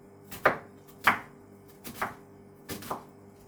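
Onions being chopped with a knife: a handful of sharp, crisp chops at an irregular pace, with quiet between strokes.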